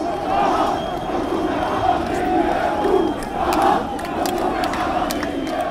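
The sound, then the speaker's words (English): Angry demonstrators in Jordan protesting austerity measures: a dense, loud crowd of many voices shouting and chanting together without pause, with surges of louder yelling throughout. “That's the sound of demonstrators who are angry over austerity measures.”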